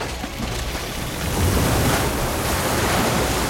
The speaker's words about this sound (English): He goes over to where water is indeed pouring in, flooding the corridor.